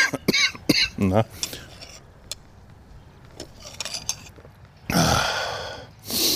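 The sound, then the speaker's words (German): A coughing fit from someone ill with a lingering chest illness suspected to be pneumonia: a burst of harsh, rapid coughs, a quieter stretch with faint scattered sounds, then another loud, longer cough burst near the end. “Ja, die Husterei geht gerade wieder los.”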